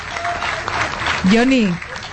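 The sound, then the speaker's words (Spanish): A crowd applauds a live music performance at a book fair with dense, steady clapping throughout while a voice speaks over it. “aplauso para Johnny, Nico, Michael, Burney, interpretando Dolor desde la Feria del Libro.”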